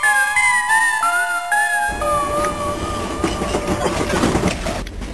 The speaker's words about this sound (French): Ça m'a l'air d'être le dernier wagon.